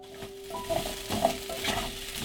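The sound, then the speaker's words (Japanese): Minced meat and chunky-cut vegetables sizzle together in a frying pan. A few stirring scrapes sound over a steady, quiet hiss. “野菜とひき肉がフライパンの上で一つになる”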